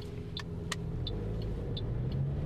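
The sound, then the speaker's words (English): Steady low rumble of a car driving around Whakatane at lunchtime: a continuous engine and road drone at an even level, with a few faint, brief high ticks and no talking. “So I'm driving around Whakatane and it's 12:30, lunchtime.”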